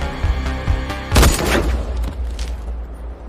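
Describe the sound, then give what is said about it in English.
A revolver gunshot in a film scene where a man fires at a distant target. One sharp, loud blast sounds about a second in, and a rumbling tail then fades slowly. “reloads the revolver. He aims carefully at Craig in the far distance and shoots him in the head.”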